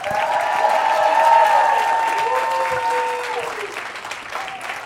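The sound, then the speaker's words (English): An audience at a stand-up comedy show applauds and cheers as a comedian is welcomed to the stage, a loud, sustained roar of clapping that slowly fades toward the end. “Let me hear you make some noise, y'all. Please welcome to the stage the very funny Ron Hortman.”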